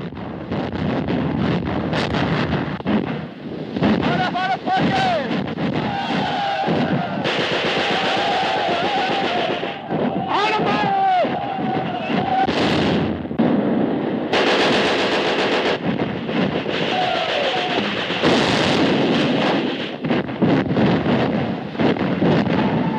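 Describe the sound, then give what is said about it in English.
Heavy gunfire and explosive blasts from an intense film battle scene with exploding artillery, a dense, loud and nearly unbroken barrage of rattling shots and booms that runs the whole way through with no talk. “Feel the concussion of the exploding artillery.”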